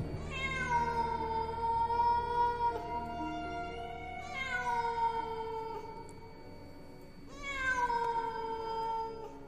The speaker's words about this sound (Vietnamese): Chỉ còn để lại ở trên đất máu văng vẳng có tiếng mèo kêu rồi biến mất trong màn đêm.